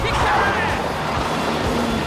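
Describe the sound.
A car driving off quickly makes a loud, steady engine and road roar that holds throughout with no clear rise in pitch.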